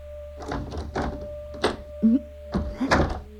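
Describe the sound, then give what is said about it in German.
A door being handled and locked: a series of dull thunks and knocks spaced irregularly, moderately loud over a low steady hum, with no voices. “Lass meine Tür in Ruhe. Du sollst doch nicht zuschließen.”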